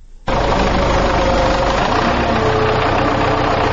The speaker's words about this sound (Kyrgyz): Трактор жер деген камдап атабыз шу.